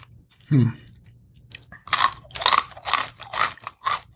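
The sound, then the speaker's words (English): Eating sounds for ASMR: a single crisp bite, then a run of loud, crunchy chewing with several sharp crunches close together. No drinking is evident. “those of you who listen to this show for ASMR, like the ASMR experience of the drinking and the eating.”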